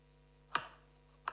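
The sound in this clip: Two sharp knife chops through carrots with a large knife, spaced well apart, each a crisp thud-and-crack against a quiet background.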